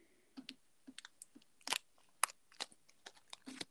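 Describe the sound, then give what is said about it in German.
Someone chewing and crunching a candy: many sharp, dry crunches come in an irregular rhythm, some loud bites standing out among smaller crackles, with no talking. “Ich esse jetzt eine Süßigkeit, von der ich den Namen nicht sage, weil es wäre Werbung.”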